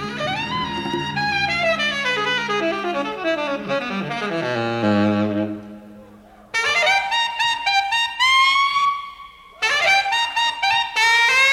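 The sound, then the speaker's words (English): Solo saxophone runs through a harmonizer pedal that stacks parallel doubled notes. A long descending run fades out, a short gap follows, and then loud bright phrases return, broken by one brief pause. “Here he's using an effect, some sort of a harmonizer pedal, and I'm going to play you what I'm talking about now. So he begins his solo, just solo saxophone.”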